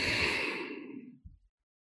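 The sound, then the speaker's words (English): A long, deep exhale rushes out in a loud breathy sigh that slowly trails off. A brief, softer breath sound follows before silence. “Take a nice deep breath in and exhale.”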